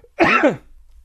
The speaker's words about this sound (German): direkt ins Husten. Genau, direkt. Ich huste einfach ins Gesicht.